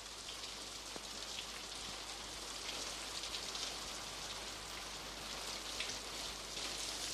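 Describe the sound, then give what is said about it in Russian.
Rain falls steadily in a continuous, even hiss of countless drops on a surface, with no individual drops standing out and no voices. “Дождь идет.”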